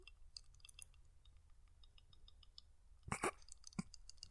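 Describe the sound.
Tongue clicking in the mouth: faint, quick wet clicks ticking irregularly, then a couple of louder, sharper clicks near the end, heard alone without talk.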